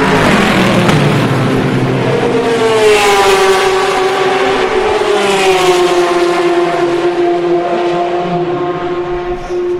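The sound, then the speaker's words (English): Race cars at Le Mans at midnight, recorded in wide stereo: a loud, continuous engine drone whose pitch climbs over the first few seconds, then holds steady to the end. “The sound of Le Mans at night, at midnight, at 180 degrees stereo.”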